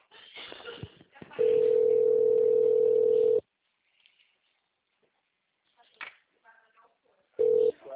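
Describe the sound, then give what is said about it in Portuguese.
Ringback tone while a phone call is being placed: a steady mid-pitched tone holds for about two seconds, then cuts to silence before a second, shorter burst returns. Brief handling noises and rustles come before the first tone. “vou fazer uma ligação”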